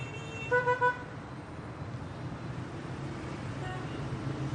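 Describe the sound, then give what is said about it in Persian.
Busy street traffic with car horns: three quick toots ring out early over a steady low rumble of passing vehicles, which then continues alone at an even level. “پسرم میشه کمکم کنی از این خیابون شلوغ رد شم آخه از بس شلوغه و ماشینا تون میرن میترسم بزنن”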